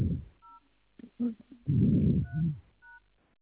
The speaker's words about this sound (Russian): соедините, пожалуйста, с Макарова 2. Да, хорошо, конечно, оставайтесь на линии.